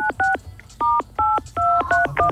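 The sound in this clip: A telephone number is dialed on a touch-tone phone: a quick series of about seven short, paired electronic beeps in an uneven rhythm, with faint clicks between them and no talking.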